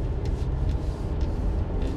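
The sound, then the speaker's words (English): Steady low rumble of a car being driven, a dense, even road and engine drone that stays constant with no distinct events. “I'm driving around in my car right now, and I'm just thinking about life right now.”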